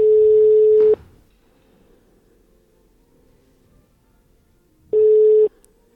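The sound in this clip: Ringing tone of a telephone call being placed: two steady, buzzy tone bursts, a long one at the start and a shorter one after about four seconds of near silence.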